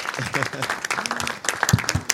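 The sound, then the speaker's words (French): An audience applauds as a high school student is introduced. Scattered, uneven claps mix with talking voices. “on l'applaudit.”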